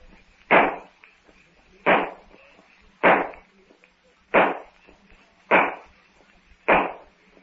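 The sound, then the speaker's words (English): Six gunshots in a Tarzan radio drama, each a loud, sharp crack with a quick decaying tail. They are fired alone at a steady, evenly spaced rhythm. “Will Clayton and Philander or Dono hear those shots?”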